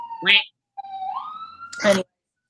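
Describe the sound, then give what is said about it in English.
An emergency vehicle siren passing outside gives one smooth rising wail, steady and moderately loud, set between two short bursts of a person talking. “I do apologize for the siren. I don't know how loud that is.”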